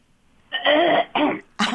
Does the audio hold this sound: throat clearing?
yes